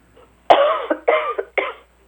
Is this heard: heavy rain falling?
no